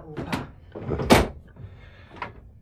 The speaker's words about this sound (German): Schön massive Türen hier, ne?